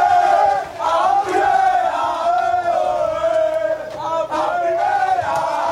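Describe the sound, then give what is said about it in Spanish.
Football players of a Málaga club shouting together as they burst into a press room during the coach's media statements after a celebrated result, a loud continuous mass of chanting male voices. “sonido que están escuchando son los jugadores del Málaga irrumpiendo en la sala de prensa”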